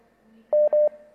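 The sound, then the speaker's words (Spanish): Two short touch-tone keypad beeps sound as a telephone is dialed for the next call. They are steady, even and clear over a faint line hum. “Siguiente llamada telefónica.”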